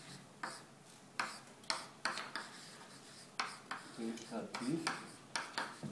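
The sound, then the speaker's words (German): Writing on a board during a lecture produces many short, scratchy strokes in irregular bursts, each a quick rasp followed by a brief pause. “Ich schreibe ihn jetzt hier herüber, weil er wirklich was anderes ist.”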